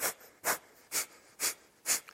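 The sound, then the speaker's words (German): Forceful nasal exhalations through the left nostril in a yogic breathing exercise: five sharp, hissy puffs in a steady, quick rhythm about half a second apart, with quiet gaps between and no talking. “Du kannst so die Nasenlöcher kurz so schließen und ein paar Mal durch das linke Nasenloch ausatmen.”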